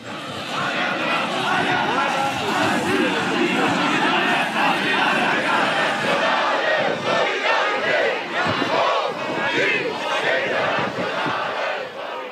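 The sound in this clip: Crowd chanting and shouting at protest demonstrations in Erfurt: many voices roar together in a dense, continuous wall of sound that stays loud throughout, with a rhythmic, call-like swell.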